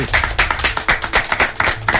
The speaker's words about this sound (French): Les amis, déjà, on peut applaudir l'entrée de Crystal.